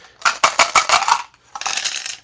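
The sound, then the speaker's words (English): Dice clatter as they are rolled to generate a passphrase: a burst of several sharp, bright clicks and rattles, a short pause, then a second, denser rattling roll, with no talking. “And basically, we roll the dice again. Only need 4 this time.”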